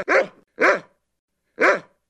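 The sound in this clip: A dog barking three times, short sharp barks of equal strength, the first two close together and the last after a longer pause.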